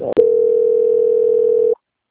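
A short click, then a single steady telephone tone that holds for about one and a half seconds and cuts off abruptly while a bank customer-service call is transferred.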